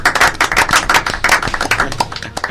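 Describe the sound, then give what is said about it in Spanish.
Applause made by slapping buttocks: rapid, irregular smacking claps that sound sharp and fleshy, repeating many times without pause. “¿Qué forma más simpática de aplaudir tienes? Sí, sí, sí, tienes una forma así muy, muy especial. Con mis nalgas.”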